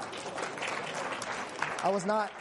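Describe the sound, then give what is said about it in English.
Audience applause during a church sermon, a broad, steady patter of clapping that runs throughout, with a voice speaking over it near the end. “I was just asking for an amen, not a clap.”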